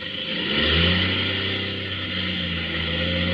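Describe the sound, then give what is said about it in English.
The failing motors of a small aircraft drone steadily with strong low harmonics. Their pitch wavers and dips slightly, as if the engines are running rough. “The motors. Sounds bad. I can just get her to catch again.”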